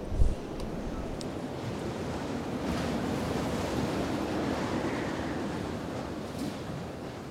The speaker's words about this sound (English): the wind's only blowing over the tent most of the time, so we'll be fine.